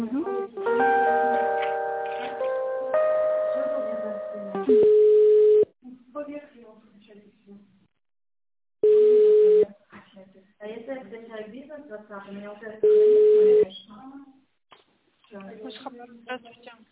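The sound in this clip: Telephone line tones while a call is on hold during a transfer: three long, steady mid-pitched beeps spaced a few seconds apart, with voices talking in between.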